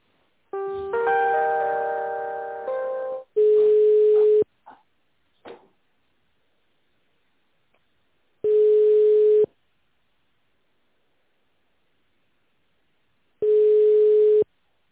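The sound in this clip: Telephone line tones while a call is being transferred: a buzzy, harmonic-rich tone for about three seconds, then three steady one-second beeps at a single mid pitch separated by long silences, with a few faint clicks in between.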